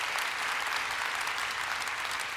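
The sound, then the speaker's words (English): A church audience applauds its worship leaders with a round of clapping, a steady, even wash of many hands that stays at one level throughout, with no speech over it. “give them a round of applause right there.”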